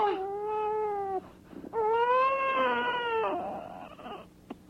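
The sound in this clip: Loud wailing crying comes in two long sustained cries with wavering pitch, separated by a short gap and followed by quieter whimpering sounds.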